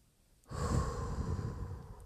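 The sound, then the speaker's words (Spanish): A deep, deliberate conscious breath: one long steady airy rush that begins abruptly and holds to the end, fairly soft and without talk. “hacer una respiración consciente que cuando inhalemos aire, inhalemos amor, positivismo, energía, buena vibra”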